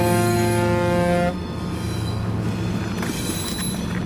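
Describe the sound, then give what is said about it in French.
Intercity locomotives in a rail depot, used on the Paris-Nevers and Paris-Clermont-Ferrand routes, give off a steady humming tone rich in harmonics that cuts out after about a second, leaving a broad, rumbling mechanical noise with a few faint knocks. “Ici, c'est toutes les machines qui font la relation Paris-Nevers, Paris-Clermont-Ferrand.”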